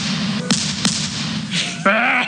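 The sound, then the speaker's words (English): Two sharp shotgun blasts crack out about a third of a second apart over a steady low hum, followed later by a brief louder burst with tonal ringing. “I'm going to take my shotgun and shoot you here, Ivan.”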